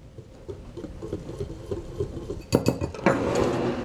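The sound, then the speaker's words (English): Flour, baking powder and salt are whisked together in a bowl for a brownie mix. After a quieter start, rapid clinking strokes begin partway through and continue to the end. “We're going to start off with 1 1/3 cups of flour, to which we're going to add 1/2 teaspoon of baking powder and 1/4 teaspoon of salt. Whisk those together.”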